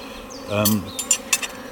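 Honeybees buzz around an open, healthy hive during an inspection with frames lifted out. The dense insect drone swells briefly and is broken by a few short, sharp clicks.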